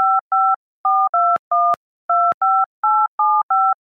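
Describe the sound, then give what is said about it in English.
Touch-tone telephone keypad dialing to reach voicemail: ten crisp two-tone beeps in an even, fast rhythm with short pauses, a few faint clicks between them, no voices. “I just got to call up my voicemail.”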